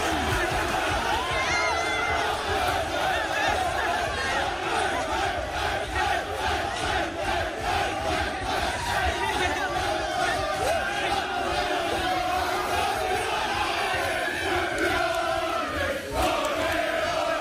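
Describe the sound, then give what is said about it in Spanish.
Arsenal players celebrate winning the title, chanting in unison with a steady pulsing rhythm over loud crowd shouting. The roar stays at full strength for the whole stretch and ends with chants of campeones. “si es que era el sonido seguido del Arsenal celebrándolo. Es un minuto más o menos. Mira, escucha. Terminaban con el campeones.”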